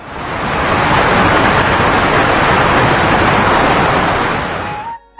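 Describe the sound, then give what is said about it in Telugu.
A roaring waterfall and rushing streams form a loud, dense, unbroken hiss of water that holds steady for about five seconds and then cuts off abruptly. “గలగలపారే సెలయేళ్లు, హోరెత్తించే జలపాతాలు,”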